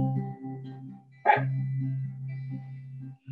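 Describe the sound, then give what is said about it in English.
A dog gives a single short, sharp bark partway through, over steady, sustained musical tones that keep playing around it. “And if you hear my dog barking, he suddenly is barking and I don't know why.”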